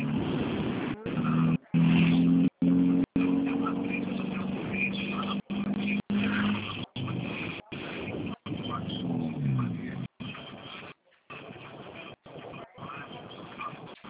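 Droning engine rumble of a car with a sport exhaust while driving, heard over a phone call, steady and loud with repeated brief dropouts in the line.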